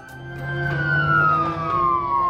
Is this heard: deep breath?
no